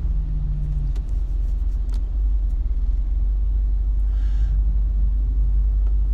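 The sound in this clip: Car driving along a road: a loud, steady, low engine and tire rumble runs unbroken from start to finish, with no voices.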